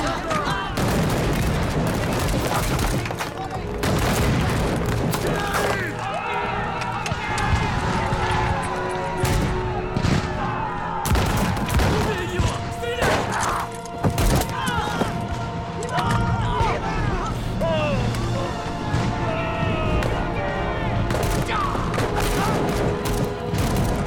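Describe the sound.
A gunfire volley erupts in a battle scene from a foreign film after an order to fire on Turkish troops. Many loud shots and booming bursts crackle densely throughout, with voices mixed into the din.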